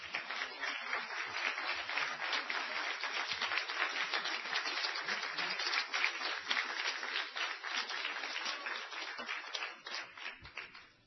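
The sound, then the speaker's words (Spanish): A church audience applauds the Lord during a service, dense, steady clapping that stays even for most of the stretch, then thins and fades near the end. “Se pone de pie conmigo. Denle un aplauso al Señor.”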